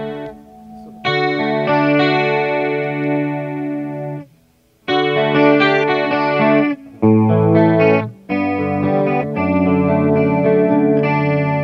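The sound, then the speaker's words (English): An electric guitar played through the chorus setting of an effects pedal rings out in a few bright, jangly chords separated by short gaps, shimmering and loud with no voices. “The chorus setting on the same pedal, because I've got two of them, the luxury of having two of them. I tend to use that mainly for jangly sounds.”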